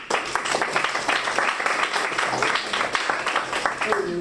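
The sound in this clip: A studio audience claps loudly to welcome four guests to a French debate on artificial intelligence. The clapping is dense and continuous, with sharp overlapping claps all the way through.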